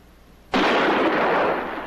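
A single gunshot bursts out suddenly as a loud, harsh blast. It holds as a dense roaring rush for over a second before easing slightly, with no voices.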